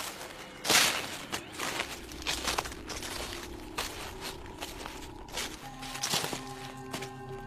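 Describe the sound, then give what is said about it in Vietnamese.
Shuffling, scuffing footsteps of someone following close behind, a few dry crinkly scrapes and soft crunches at an uneven pace, with a faint low hum and steady tones coming in near the end. “bỗng dưng sau lưng lão vang lên tiếng loẹt xòa loẹt xoẹt, cứ như là có ai đang đi theo.”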